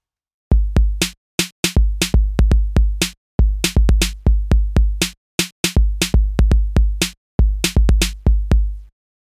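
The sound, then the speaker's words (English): A dry drum beat played alone as a vocoder modulator: punchy, loud hits in a tight repeating rhythm, grouped in short bars separated by brief gaps. “Instead of the vocals, we could use a drum beat as the modulator.”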